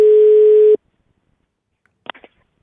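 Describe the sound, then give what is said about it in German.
A telephone line tone heard while placing a call, a steady single-pitch beep lasting under a second that cuts off abruptly, followed after a pause by a few faint clicks. “Und bei einer oder einem von euch rufe ich jetzt einfach mal an.”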